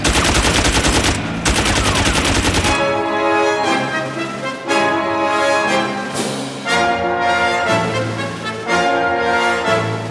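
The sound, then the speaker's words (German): Machine-gun fire aimed at police officers: a dense, loud rapid rattle fills the first few seconds before music takes over. “Es wird geschossen! Sind die verrückt? Mit MGs?”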